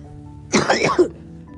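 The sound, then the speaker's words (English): A person coughing during a spoken recording, a short burst of a few harsh, breathy coughs with sharp peaks that rise loudly out of near-silence and stop abruptly, with no talk over them. “my cough is coming back, so I'm gonna wrap this up”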